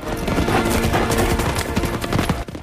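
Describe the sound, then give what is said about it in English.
A horse galloping through open grassland dotted with trees, its rapid hoofbeats drumming loudly and steadily before dropping away abruptly near the end. “Ned rides the galloping horse through open grassland which is dotted with trees.”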